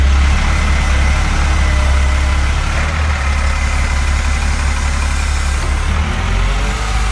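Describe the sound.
A gritting truck's engine runs steadily during winter road salting, producing a loud, unbroken low drone with a rough rumble and no clear change in pitch.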